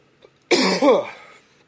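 A sudden harsh cough from someone who has inhaled spit, bursting out loudly and running into a strained, voiced rasp before fading to quiet.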